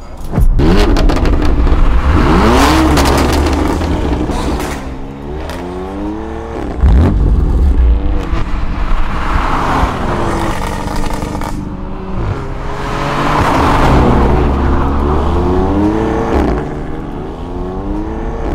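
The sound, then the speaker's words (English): Engine of a BMW M5 Competition car revving hard, with repeated loud revs whose pitch climbs and drops several times. The deep, raspy roar continues for the whole clip with no talking. “That right there is a BMW M5 competition pack.”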